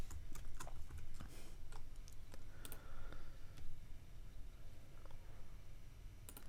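Typing code on a computer keyboard while writing a unit test: many soft, irregular key clicks in quick runs and short pauses, with occasional louder single taps, and no talking.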